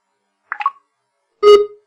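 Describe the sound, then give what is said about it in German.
A label scanner reads a freshly labeled item, giving a soft short click followed a moment later by a louder, clear electronic beep, with silence around both sounds. “Also ich scanne jetzt das Label ein, was wir gerade beschriftet haben sozusagen.”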